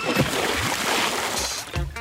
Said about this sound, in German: Jawohl, platsch da.